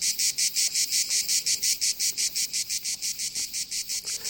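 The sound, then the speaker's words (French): Cicadas chirping in a loud, high-pitched pulsing buzz, with many rapid, evenly spaced bursts repeating steadily throughout and no voices. “Voici les cigales envoyées par Thomas Beau.”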